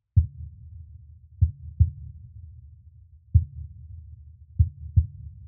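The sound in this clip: A synthesized heartbeat layered under a kick drum in a music track: low, muffled thumps, some falling in close pairs, over a steady low droning hum.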